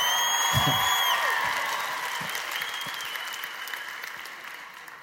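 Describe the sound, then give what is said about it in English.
Applause from a church audience during a sermon, a steady, even wash of many hands clapping that slowly tapers off over several seconds. “Give a final four clap if you're going to do it.”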